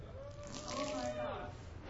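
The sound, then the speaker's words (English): Water is poured out as a drink offering, a steady splashing trickle that swells briefly in the middle while a person talks over it. “The drink offering represents essentially pouring out your life. All right, so here we go. This is the equivalent of a drink offering, okay? Here we go.”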